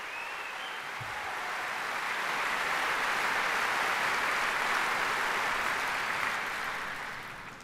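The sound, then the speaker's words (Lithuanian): Sustained audience applause for the musicians at a tribute concert, a dense wash of clapping that swells gradually and stays steady and loud for several seconds with no talk over it. “Plojimai visiems muzikams.”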